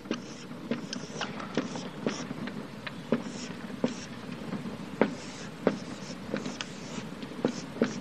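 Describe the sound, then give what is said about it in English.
Someone writes on a board, making many short, crisp strokes and taps in an uneven rhythm. The strokes are fairly faint over a soft background murmur. “I'm going to write this up here. I'm going to see if I can write big enough so you can see this.”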